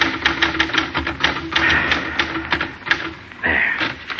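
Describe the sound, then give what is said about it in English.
Keys clack on a battered typewriter in rapid, uneven runs of many sharp strikes, some slightly louder than others, with brief pauses between bursts. “On his desk, a battered typewriter.”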